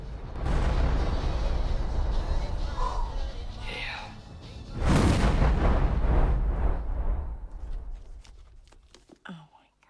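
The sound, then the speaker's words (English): Blaster cannon fire erupts from a stag's tail: loud, harsh roaring blasts, a sustained burst that eases off briefly before a second heavy barrage, then trailing away into fainter crackles. “This throws its tail up in the air and reveals a blaster cannon out of its bum. It fires on Dennis, who is floating in the sky, and destroys him.”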